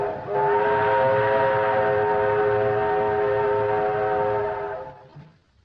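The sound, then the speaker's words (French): A steam train whistle sounds as a train arrives in a film, one long, steady, multi-toned blast held for about five seconds before fading away. “C'est le train qui arrive.”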